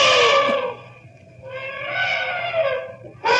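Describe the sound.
A charging elephant trumpets in loud, blaring, harmonic calls: a long bellow, then a rising second call, with another blast starting at the end.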